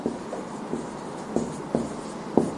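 Rubbing strokes on a board as its writing is erased: a few brief scraping bursts at an uneven pace, fairly faint over a steady background hiss.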